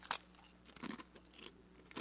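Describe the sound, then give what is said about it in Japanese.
A crunchy rice cracker, a shop's signature senbei, gives a sharp crisp crack at the first bite, then a few scattered crunching chews at lower loudness, ending with another crisp crunch. “オリジン名物のせんべいでありますけれども、じゃあ僕一口いただきたいと思います。”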